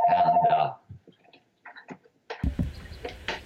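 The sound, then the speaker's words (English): A mobile phone ringtone from an incoming call plays a short, steady tonal ring at the start, then cuts off. After a short gap, a person starts talking. “Turn off my other phone. I apologize. You can blame that on me. That was my phone.”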